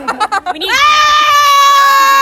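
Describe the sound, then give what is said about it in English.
A group of people scream together, a loud, sustained, high-pitched blend of voices that holds steady to the end, preceded by a few short spoken syllables. “Okay, everyone scream on the count of three.”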